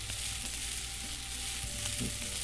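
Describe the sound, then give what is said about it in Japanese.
Fish grilling in a video game gives a steady, even sizzling and frying hiss that holds at a constant low level throughout, with no voices. “もうすぐ多分魚が焼き終わるかな。”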